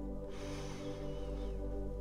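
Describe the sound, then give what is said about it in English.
A slow, deep breath is drawn in, a soft airy hiss starting shortly after the beginning and continuing steadily over a quiet droning musical tone. “Take three big breaths. One in”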